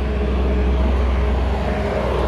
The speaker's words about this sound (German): das hier ist gerade, glaube ich, die Müllabfuhr oder irgendwas ähnliches.